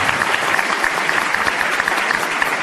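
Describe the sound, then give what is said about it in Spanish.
Loud, steady applause from an auditorium audience at a 30th anniversary ceremony, dense clapping that holds at an even level throughout. “nos acompaña también el auditorio para quienes voy a pedir un fuerte aplauso.”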